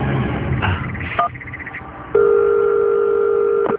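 A telephone tone sounds as a call is placed again: a few brief, softer beeps and clicks, then a steady, loud two-pitched electronic tone holds for about a second and a half before cutting off.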